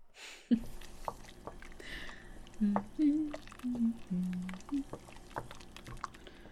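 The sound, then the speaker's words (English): Food being stirred in a skillet: a sharp knock opens a run of soft, wet squishing and scraping strokes in an uneven rhythm over a quiet, steady background. “I'll get this stirred in”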